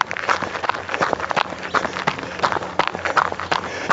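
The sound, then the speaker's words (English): Footsteps of a person running sound as many rapid, evenly spaced thuds in a steady rhythm throughout the few seconds. “As you can hear, I'm running.”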